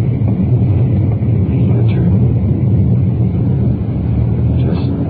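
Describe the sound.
A car with its windows open swings around a corner, giving a continuous low engine and road rumble at an even, fairly loud level throughout.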